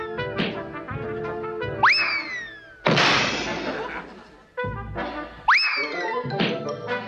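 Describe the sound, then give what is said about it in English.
A medicine ball being hit and thrown during a workout in a cartoon: two heavy, crashing thumps, each with a hissing tail, and springy boing effects between them, set against a musical background. “Come on, we'll work out with the medicine ball for a while.”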